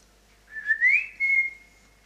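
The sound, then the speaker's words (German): A person whistles to call a miniature pinscher dog: a clear, fairly high tonal whistle in two phrases, the first rising quickly in pitch, the second a long, steady held note. “Das war sein Pfiff. Dann ist er immer gekommen.”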